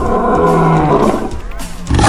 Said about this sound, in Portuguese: Não é o leão fugiu, não, hein? É o leão rugiu!